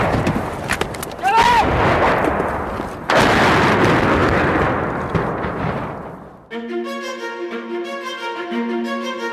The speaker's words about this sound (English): Chernihiv's being bombed relentlessly, but the Russians have spotted this escape route, and minutes after we arrive, they hit it.